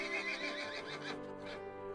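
A horse neighs with a loud, wavering, harmonic whinny. The horse is a tall black cross between an Irish Draught mare and a Thoroughbred stallion, standing 16 hands with a broad, powerful body.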